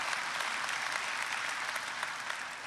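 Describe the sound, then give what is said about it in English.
An audience applauds in church, with dense, steady clapping from many hands holding an even level from start to finish. “Would you put your hands together and welcome everybody that's joining in with us?”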